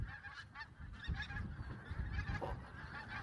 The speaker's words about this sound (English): These geese are just fantastic. They're flying over the whole time. What a noise.